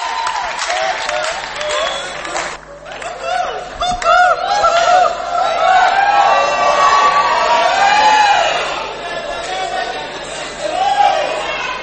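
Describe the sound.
A concert audience cheers and applauds to welcome a performer, a loud, continuous wash of clapping mixed with shouts and overlapping voices that swells and holds throughout.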